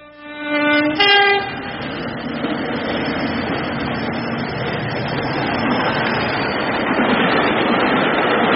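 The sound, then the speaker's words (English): A big train rolls down the track, opening with a loud horn blast before a steady, heavy rumble of wheels on rails continues to the end. “That is the sound of a big train going down the track.”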